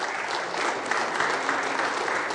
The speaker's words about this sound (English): Can I get a hand clap?